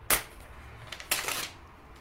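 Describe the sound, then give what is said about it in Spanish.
A sheet of paper torn from a pad: a short, crisp rip followed a second later by a longer tearing sound, both fairly loud with quiet between. “Es, mira, voy a arrancar una hoja porque es más fácil”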